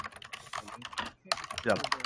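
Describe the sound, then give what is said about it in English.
Quiet, rapid clicking of typing on a mechanical keyboard with Cherry switches, in uneven bursts with a short pause midway, and a voice faintly mixed in. “who's on cherry keys on a mechanical keyboard?”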